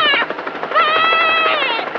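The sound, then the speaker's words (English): A helicopter is loud and close, its rotor blades beating in rapid, regular thumps under a whining engine tone for about two seconds. “What's that? It's a chopper!”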